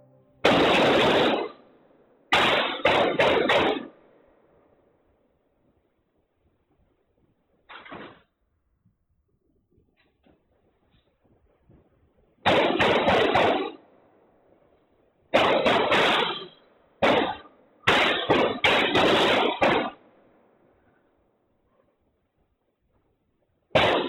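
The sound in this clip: Rifle gunfire recorded in a school hallway during the Uvalde, Texas shooting: several loud, harsh bursts of rapid shots separated by stretches of near silence, with one fainter burst among them.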